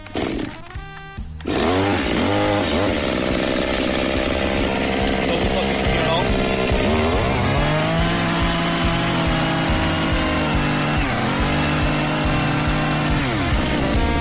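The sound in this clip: A chainsaw cuts into a tree. Its loud engine drone kicks in after a brief quieter start, then runs steadily, with the pitch dipping and recovering a couple of times as the blade bites.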